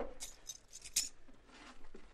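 Handcuffs click onto a suspect in a radio drama, heard as a few quick, faint metallic clicks in a row, with softer rustling between them.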